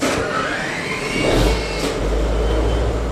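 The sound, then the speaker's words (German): The diesel engine of a sixty-year-old Dutch-flagged cargo ship is started by push button in a Mannheim harbor. A broad, steady engine roar carries a deep low rumble that grows stronger partway through and then holds. “Leinen los und dann wird der Dieselmotor angeschmissen mit Knopfdruck.”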